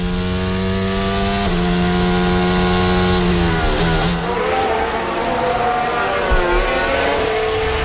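Formula 1 race cars racing: a loud, continuous high engine whine that drops and climbs in pitch as the engines shift and rev, alone without talk.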